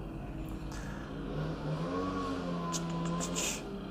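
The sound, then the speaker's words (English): A leaf blower runs outdoors in autumn, its engine holding a loud, steady whirring drone with a rough low rumble beneath, unbroken from start to end. “We'll listen to the leaf blower”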